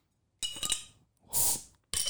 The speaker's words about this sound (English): Now's the time to crack a cold with the Spicy Boys and pop that top.